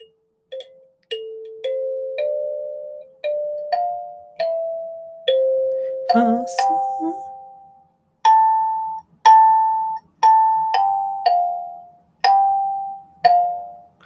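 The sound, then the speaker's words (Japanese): Kalimba notes ring out in a gentle melody of many plucked, bell-like tones, each decaying softly before the next. The player pauses briefly midway, then continues on slightly higher notes. “綺麗、めっちゃ好き。いや、いいもんもらっちゃったな。カリンバでございました。”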